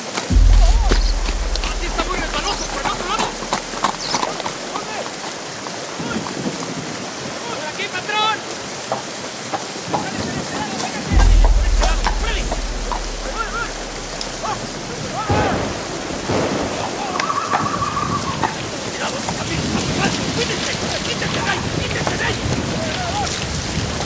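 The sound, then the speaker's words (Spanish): Heavy rain pours down in a steady, dense hiss, with deep rumbles at the start and again midway. “¡Cuidado! El agua no cesa. Se torna cada vez más fuerte.”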